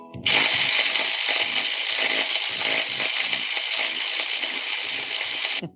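Welding a roll bar to another roll bar produces a harsh, steady buzzing crackle that starts abruptly, holds at an even, loud level for about five seconds, then cuts off.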